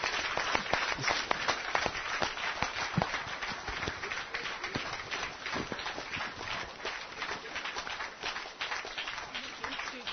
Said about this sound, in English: Let's give them a hand.